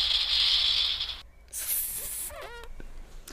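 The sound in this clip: Rattlesnake rattle sound effect triggered from a button: a sustained dry, buzzing hiss, then a short break and a second, higher-pitched burst, followed by a few quick chirping tones.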